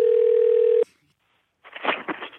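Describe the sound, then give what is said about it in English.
A telephone dial tone after a call disconnects: a steady, continuous hum that stops abruptly, followed after a short silence by a person talking. “Oh, the call disconnected. What? Should we call him back? What happened?”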